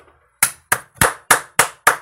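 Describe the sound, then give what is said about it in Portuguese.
A man claps his hands six times in a steady rhythm, each clap crisp and loud with a brief decay, and no other sound between. “Agora quem bate palmas sou eu, né? Mas ninguém está a aplaudir, pois não?”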